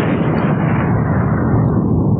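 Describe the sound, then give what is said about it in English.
A volcano eruption sound effect from a parody commercial: a loud, dense, continuous rumbling roar that holds steady throughout, with no separate blasts. “It's a volcano.”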